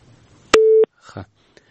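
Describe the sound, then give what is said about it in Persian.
A phone call cut off: a sharp click, then one steady low-pitched beep lasting about a third of a second, followed by brief muffled noise and a faint click. “دوی سره مو تماس پرې شو.”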